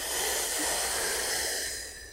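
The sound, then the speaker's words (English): A deep breath drawn in through the mouth during a relaxation exercise: one long, airy hiss that stays steady for about two seconds and then tapers off, with no talking. “We are only inhaling through the mouth, filling the belly and lungs.”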